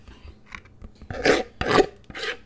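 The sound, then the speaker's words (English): Rubber-like scraping around a mixing bowl of pumpkin pie filling: a few faint rasps, then three longer, louder scraping strokes in steady succession, with no talking. “is scraping the mixing bowl to get every last bit of the pumpkin pie.”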